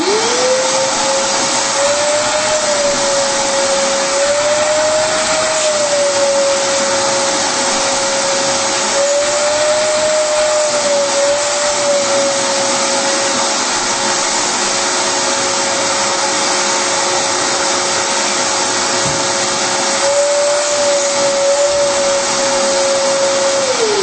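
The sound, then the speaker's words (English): A small-motor vacuum cleaner runs with its hose connected, giving a loud, steady, fairly high-pitched whine that holds for the full duration with only slight wavering in tone. “Let's fire this one up, and I'll let you hear what this sounds like. Again, definitely a smaller motor. And you can tell, but it's a little higher pitch.”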